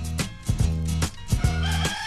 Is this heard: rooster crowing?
yes